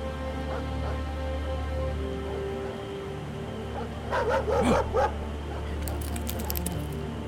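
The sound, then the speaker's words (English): A pack of hounds at daybreak in a radio drama of The Most Dangerous Game: a cluster of loud barks and yelps in the middle over a steady low drone, with fainter yips afterward. “I woke with a start by a sound that told me I had new things to learn about fear. A pack of hounds.”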